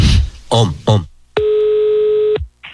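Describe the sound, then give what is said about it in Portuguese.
Telephone call tone: a single steady, clear beep lasting about a second, with short bursts of talking just before it and another voice starting right after. “Vou ligar agora pra Janaíra.”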